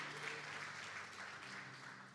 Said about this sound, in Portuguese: Dê uma salva de palmas a Jesus, porque Ele é bom e Ele está na casa, amém?